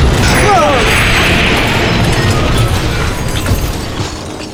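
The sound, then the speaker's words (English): German panzer tanks approach in a dramatic sound effect: a loud, dense mechanical clanking and grinding rumble that carries on continuously and eases slightly toward the end. “But I know that shape. Blimey. They're German panzer tanks.”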